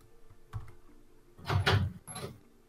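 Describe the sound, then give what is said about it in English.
A door being opened during a tabletop role-playing game session: a few quiet clunks and rattles, with a louder scraping burst in the middle, all fairly faint. “someone's opened a door”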